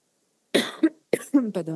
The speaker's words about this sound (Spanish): Perdón, es que estoy saliendo de un flu y todavía me quedo a un poco de tos.